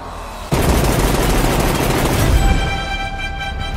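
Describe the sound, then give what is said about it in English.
Movie trailer audio full of loud, dense gunfire: a sudden, sustained rattle of rapid shots. Steady tones emerge beneath it toward the end. “I just played a clip from the trailer for John Wick Chapter 3 Parabellum.”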